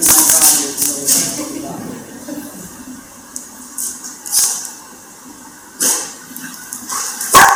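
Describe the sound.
A dog barks and yips playfully in a few short, sharp bursts, spread unevenly over a continuous noisy background.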